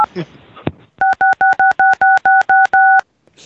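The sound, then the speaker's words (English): A telephone tone played down the line at a caller: after a brief voice and a click, a rapid series of identical, evenly spaced electronic dual-tone beeps sounds loudly, ending in a slightly longer final beep. “Hang up the phone. Hang up. Play a dial tone at him.”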